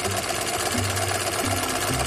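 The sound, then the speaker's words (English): A sewing machine zigzag-stitches die-cut letters onto a nameplate for uniform names, a fast continuous mechanical chatter over a low motor hum that runs steadily throughout. “My main job is to sew the names on the uniforms. I build the names on a nameplate. All right. I spell them out. On my corner. I zigzag each letter down. It's a die-cut letter. And then I take the nameplate and I sew it onto the uniform.”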